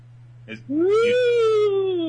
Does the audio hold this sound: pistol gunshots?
no